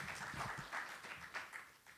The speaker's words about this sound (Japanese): もう一度盛大な拍手をよろしくお願いいたします。